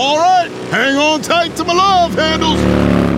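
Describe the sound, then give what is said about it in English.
A motorcycle fitted with a custom beefy muffler, a new air intake filter and a quick shifter rumbles low beneath a man's talking, then swells into a louder, rising rev near the end. “New air intake filter, quick shifter, and a beefy muffler. Well, that's why you ride with GEICO Motorcycle Insurance, so you can cover your custom parts and equipment. Now let's hear that muffler purr.”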